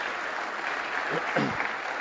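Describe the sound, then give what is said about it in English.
Church audience applauding a long-serving member: soft, even clapping throughout, with a voice speaking briefly over it partway through. “So give her a big round of applause.”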